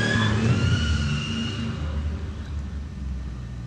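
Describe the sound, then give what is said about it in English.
A car engine roars as a car does donuts in the snow, a steady, dense rumble with faint higher engine tones that eases slightly toward the end, with no voices. “Something doing donuts, I guess, in the snow.”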